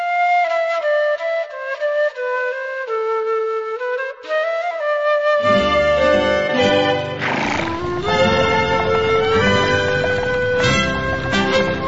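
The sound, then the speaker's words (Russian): Horse whinnying and hooves clip-clopping as a horse-drawn carriage drives away, a full, steady sound that thickens with low rumble partway through. “Сели они в карету и домой поехали.”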